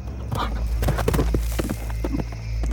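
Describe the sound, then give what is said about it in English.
Galloping hooves of a buffalo running through the night: many irregular thumps over a steady low hum. “In her place, a magnificent buffalo galloped through the night.”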